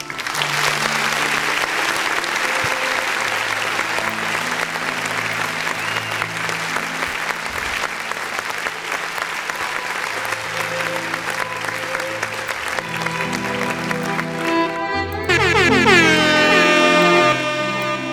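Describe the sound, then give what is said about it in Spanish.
Audience applause at a live music event: dense, steady clapping that fills the whole stretch at a loud, even level, with tonal sounds joining near the end. “De corazón les digo gracias y les quiero dar un aplauso.”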